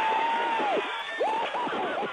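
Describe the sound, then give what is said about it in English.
NASA Jet Propulsion Lab scientists in Pasadena cheer Curiosity's Mars landing, with rising whoops and shouts over a sustained crowd roar that stays loud throughout. “Late last night, scientists at NASA's Jet Propulsion Lab in Pasadena cheered as the Curiosity lander ended its 150 million mile journey, landing on Mars intact.”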